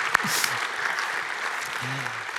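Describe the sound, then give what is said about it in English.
Audience applause fills a church service as the in-person audience welcomes worshippers joining online: steady, dense clapping that holds at an even level throughout, with a faint voice briefly underneath. “If you are here in person, would you put your hands together and welcome in our online audience? Help me out here just a little bit.”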